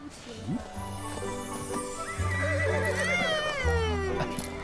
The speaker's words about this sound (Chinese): 别怕别怕，马儿都是有灵性的。